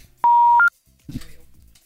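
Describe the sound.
A telephone is dialled: one sustained electronic tone, then a brief higher beep, followed by a short burst of low, muffled sound.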